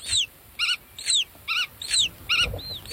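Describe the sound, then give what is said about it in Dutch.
Black-tailed godwit parents call while flying over a field: about seven sharp, high, ringing notes in quick, regular succession over three seconds, alone against a quiet low background. “En wat je hier hoort zijn grutto-ouders die rondvliegen boven het veld en communiceren met hun jongen in het ei.”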